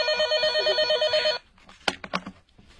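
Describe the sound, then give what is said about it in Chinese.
A telephone rings with a rapid, warbling electronic ring, holding steady for about a second and a half before cutting off, after which a few short, sharp knocks follow. “就在这时，苗振接到电话”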